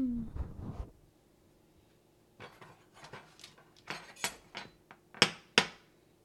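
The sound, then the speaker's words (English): Knife scraping the cream filling off sandwich cookies: a series of light clicks and short scrapes, with the sharpest taps near the end after a quiet stretch. “I'm going to scrape off all the cream off the cookies. Set it aside.”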